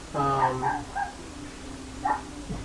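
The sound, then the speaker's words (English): Dogs barking in the background: a quick cluster of sharp, high-pitched yaps and whimpering yelps, then another bark after a short pause. “I love the dogs. Anyway, if you can hear them in the background, they're barking their ass off.”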